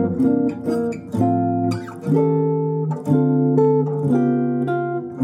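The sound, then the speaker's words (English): Jazz chords move chromatically through tritone substitutions, including a D-flat 7 sharp 11, as five sustained chords change roughly once a second with no talk over them. “So now essentially what we have this chromatic moving situation, but we're using these tritone substitutions. So it sounds like this.”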